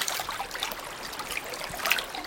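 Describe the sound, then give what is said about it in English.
River water trickles and splashes softly as a hand runs through its surface. The bright, continuous rustle carries small droplet splashes and stays fairly quiet throughout. “Moving as close as you can to the river, your hand hovers above the surface before running it through the water,”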